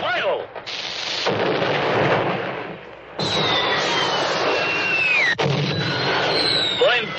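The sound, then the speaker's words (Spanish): A gunshot booms out in a busy film scene and sets off a loud, rumbling roar of blasts. High whistling tones glide downward over the din. “Los desollinadores se dispersan corriendo. Nuevo disparo.”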